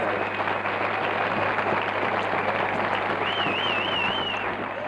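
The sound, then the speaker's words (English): Applause and cheering from the audience at a live show, a steady, dense wash of clapping throughout, with a brief warbling whistle rising above it near the end. “It sounded like a little club audience until the end there. It's kind of like the Europeans are all just like sitting on their hands till the very end. They just went crazy.”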